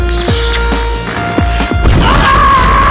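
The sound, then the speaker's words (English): Grenades exploding in a video game, several sharp blasts landing in quick succession within a loud, dense mix of sustained tonal game sounds and rumble. “One of them just threw 6 grenades! They're gonna explode separately, but really close together!”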